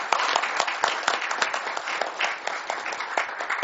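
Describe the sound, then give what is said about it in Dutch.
Applause from the audience at an appointment ceremony: many hands clap densely and steadily at moderate loudness, the sharp claps overlapping throughout. “We mogen klappen over.”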